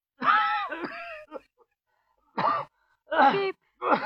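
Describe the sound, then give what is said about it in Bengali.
Harsh, severe coughing from someone in the next room: a few rough, throaty bursts with a groaning, voiced edge, separated by short pauses. “কে এমন কাশছে কোথায়? মনে হয় পাশের ঘরের কেউ সাংঘাতিক কাশছে এমন।”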